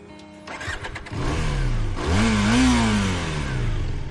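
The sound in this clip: A car engine starts and revs as a learner driver pulls away in first gear: a short rough cranking burst, then a rising rev that peaks and eases into a steady throaty drone, with no voices.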